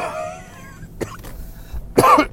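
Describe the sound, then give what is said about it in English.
Coughing: a few harsh, breathy coughs come in short bursts, one brief and then a louder, longer cluster near the end, over a faint low background with no talk. “I hope you enjoyed my cough-filled podcast.”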